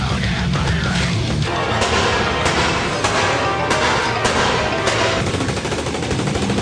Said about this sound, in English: Point that motherfucker, shoot him right between the eyes.